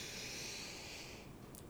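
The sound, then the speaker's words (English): A slow, deep breath drawn in during a guided meditation, a soft, airy hiss that holds steadily for about a second before fading into quiet. “Now we're going to take two more breaths, going a little deeper within. Let's take in that breath.”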